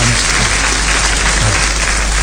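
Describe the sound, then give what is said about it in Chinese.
Audience applause: loud, dense clapping forms an unbroken roar that stays at an even level from start to finish. “念到此处听一听，下面可能有掌声 啊。这要掌声呢，”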